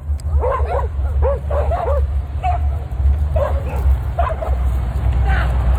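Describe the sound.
Dogs barking and yipping as they chase a man, with many quick high yaps in irregular bursts over a constant low rumble of background noise.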